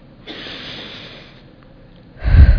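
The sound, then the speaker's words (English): A deep human breath: a long, airy inhale hisses steadily, a short pause follows, then a loud, gusty exhale closes it. “And breathe. It's all right now.”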